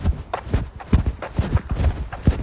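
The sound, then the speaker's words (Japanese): Footsteps while jogging: a steady, rhythmic run of soft thudding steps, each landing with a low thump, heard alone without talk. “今ね、まあ、タイトルコースジョギング中です”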